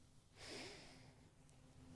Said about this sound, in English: Take a big breath in.